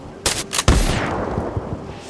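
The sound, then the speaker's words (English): Rifle fire in a tabletop role-playing game scene: a few sharp bangs in quick succession, the last heaviest with a low boom, followed by a high whistle that falls in pitch and a long, fading tail. “The Ludsmith that was just shot by a blazing bolt levels its rifle down at Sasquatch Luton and fires.”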